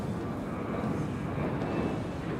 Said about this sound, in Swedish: Nyss lyfte ett plan mot Tel Aviv.